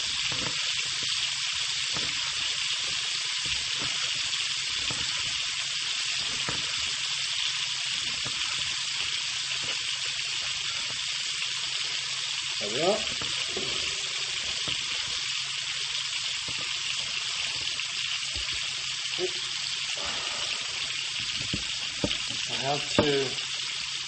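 Meat sizzles as it fries in a pan, a loud, constant crackling hiss that runs unbroken, with a few brief scrapes or clatters breaking through, mostly in the second half.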